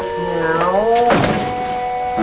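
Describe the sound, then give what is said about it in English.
Creaking door hinges in need of oiling produce a drawn-out squeal whose pitch rises and wavers, followed by a short rough burst of noise as the door moves. The sound is loud and rings clearly. “That door, you know, the hinges need a little oiling, my boy.”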